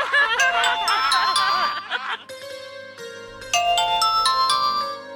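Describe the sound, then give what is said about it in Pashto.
A phone ringtone plays for an incoming call from a father. It is a bright, melodic run of chiming electronic notes that breaks off briefly midway and then starts up again. “دا خو ستا د بابا ټلیفون دی”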